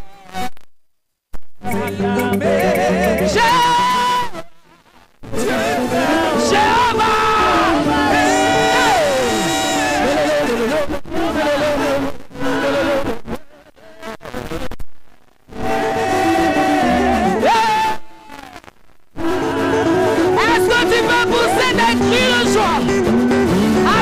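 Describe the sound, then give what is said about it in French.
An audience shouts and acclaims Jesus during a celebration worship service. Many voices rise in loud, sustained bursts broken by several short silences. “Jésus est acclamé. Montre-moi comment Jésus est acclamé. Hey! Acclame, acclame, acclame, acclame, acclame, acclame.”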